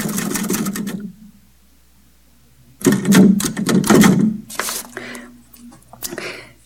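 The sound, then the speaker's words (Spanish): Typewriter-like mechanical clatter in two bursts: rapid, busy tapping, then a long pause, then a second, louder run of dense clacks that thins out toward the end. “hay en el mundo cosas que suenan igual, como una máquina de escribir.”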